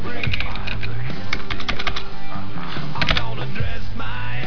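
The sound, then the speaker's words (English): Keyboard typing as a search is entered on a computer: many quick, crisp key clicks in an uneven run throughout, over a steady low background. “Just type in Dallas as”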